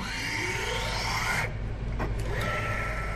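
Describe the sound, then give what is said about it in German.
A microtome machine slices brain tissue into very thin sections with its blade, thousands of cuts per brain. It makes a steady mechanical whir with sweeping tonal lines, and its brighter upper noise drops away briefly partway through. “Dabei wird jedes Mal butterweich eine hauchzarte Scheibe aus dem Zellgewebe abgetrennt. 6.000 bis 8.000 solcher Schnitte fertigt die Maschine von jedem einzelnen Gehirn an.”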